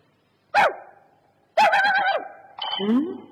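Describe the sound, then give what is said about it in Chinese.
A stray dog barks in three bursts. The first is short and sharp, and the next two are longer, with a strained, whining edge. “呸！这条该死的野狗！”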